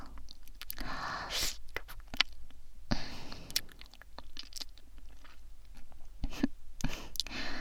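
Crunchy eating and chewing of food: many moist bites and crunches in an uneven rhythm, with soft mouth clicks between them and no talk.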